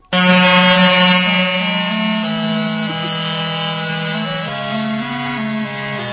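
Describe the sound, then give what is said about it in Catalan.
A reedy, buzzy wind tone from an aulos, the ancient Greek double-reed pipe with two cane tubes, plays loud and sustained with no voices. It holds a bright drone-like sound and shifts notes a few times. “Aulos es diu aquest instrument que sona ara mateix. Sí, és un instrument que té dos tubs i que està fet de canya i té dues llengüetes de canya.”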